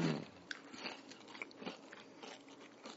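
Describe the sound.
Someone eating and chewing food, with faint, crunchy bites and many small, irregular crunches, heard alone with no talking.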